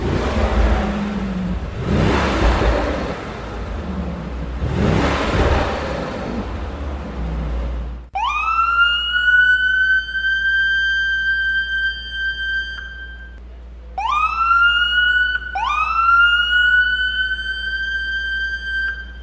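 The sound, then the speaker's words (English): A Dubai Police Mercedes AMG GT supercar roars through loud, bursting engine revs, then gives several sharp, rising high-pitched tonal sweeps, with no talk. “First Lieutenant Khalid gave me a ride in the new Mercedes AMG GT, which can go up to 312 kilometers per hour. This is what it sounded like.”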